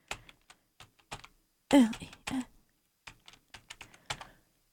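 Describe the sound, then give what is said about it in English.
A password is typed on a computer keyboard: many sharp, separate key clicks in short uneven bursts with quiet gaps, and one louder, noisier cluster partway through. “I don't know how to type my password in. What? It is my password, I swear.”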